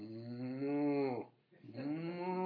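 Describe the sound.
A human voice imitates cattle mooing, giving two low, drawn-out, droning moos separated by a short breath, the first longer and steadier than the second.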